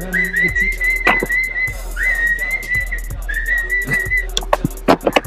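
A person whistles clear, sustained high notes in three drawn-out phrases separated by short pauses, with a few sharp clicks near the end and no talking.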